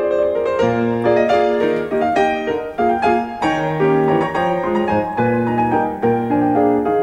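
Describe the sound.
Solo piano plays a Chopin waltz from a 1982 recording of the first fourteen waltzes, issued on the first printed CD. Flowing melody and chords move in a lilting triple-time rhythm at an even, moderately full volume.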